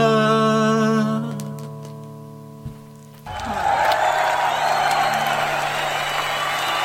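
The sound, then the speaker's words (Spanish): Applause and cheering from an audience after a song at a gathering: a sustained musical chord fades out, then a dense, steady wash of clapping and crowd noise fills the rest. “Aplausos. Bravo, lindo. Aplausos para el amigo. Hermoso tema.”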